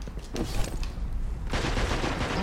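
Fusion rifle fire in a team-based shooter video game: a dense, continuous crackle of rapid gunfire-like bursts that grows fuller and louder midway and stays steady to the end.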